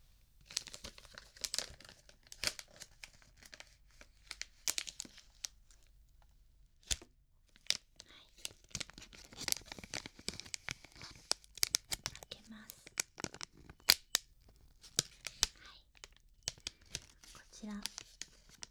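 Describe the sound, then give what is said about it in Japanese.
Sharp tearing and crinkling plastic as a bag of Pure Gummy Premium gummy candy is torn open, with many quick crackling bursts and rustles spread over nearly twenty seconds at fairly low volume. “グミを用意いたしました。はい、では早速袋を開けて食べていきたいと思います。”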